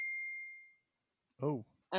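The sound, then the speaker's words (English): A phone's text message notification gives a single high, clear ding that rings out and fades within a second. After a short silence, a person starts talking. “It's a text message. I was afraid it was like a smoke alarm or something.”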